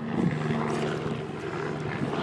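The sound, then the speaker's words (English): A helicopter carrying an underslung load flies in the background at the top of a moorland clough. It makes a continuous, moderately loud low drone with a steady rotor hum that holds unchanged throughout, with no voices. “You may hear the helicopter in the background there.”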